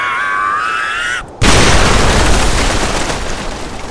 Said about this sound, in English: He's trying to take your staff. And he takes it and he breaks it and it explodes.